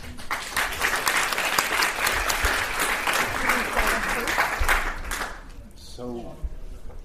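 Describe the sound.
An audience applauds to welcome guests at a film event, with dense, steady clapping for about five seconds before it fades and a voice begins speaking.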